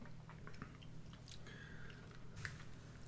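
Chewing of Spam canned meat from a 200-gram pack, with soft wet bites and squishy mastication sounds repeating at a quiet level, without talk.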